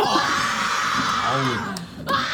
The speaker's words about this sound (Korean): 아, 본인들이 나오니까 열광하고 있습니다. 나 놀랐어. 얘들아, 너희들 나왔다 소리 질러! 소리 질러!